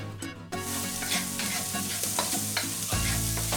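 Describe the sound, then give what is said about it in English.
Butter is stirred into a pan sauce made from the cooking liquid of mussels, giving a continuous soft scraping and bubbling sizzle that stays fairly quiet and steady, with no talking. “I'm going to let them cool down a little bit, and I'm going to start mounting my sauce with butter.”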